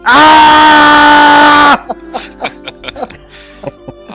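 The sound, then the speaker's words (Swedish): A person gives one loud, sustained shout, lasting under two seconds, to mark an edit point in a recording. The shout cuts off sharply and quieter talk follows. “Jag ska bara ropa lite här så jag vet vad jag ska klippa.”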